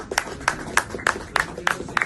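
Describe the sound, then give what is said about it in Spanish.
Timid applause after the Sweden–Turkey NATO agreement between Erdogan and the Swedish leader: about seven sparse, evenly spaced single claps in a slow, hesitant rhythm, with quieter background murmur between them. “La verdad es que mucha efusividad no parece en los aplausos con Erdogan, pero bueno, así sonaban tímidos aplausos tras el acuerdo llegado entre el líder sueco y el turco.”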